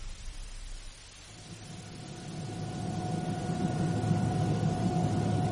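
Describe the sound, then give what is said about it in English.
An airliner landing at Tangier Airport gives a steady roaring engine wash with a thin tonal whine, swelling gradually louder over the span and holding a dense, even rumble, with no talking. “Ladies and gentlemen, we have now landed at Tangier Airport. Would you kindly remain in your seats and keep your seat belts fastened until the aircraft comes to a complete halt at the terminal building?”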